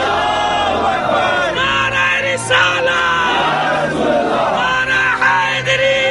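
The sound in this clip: A large crowd roars Allahu Akbar in reply to the Naara-e-Takbeer call at an Urdu religious gathering. The massed voices shout loudly and continuously, swelling in a few surges of chanting.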